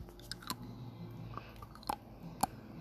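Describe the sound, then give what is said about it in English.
Crunching of a hard Polo mint being chewed, with a few sharp, faint cracks scattered through an otherwise quiet stretch. “I can have another polo. Let's get the sound on that. ASMR.”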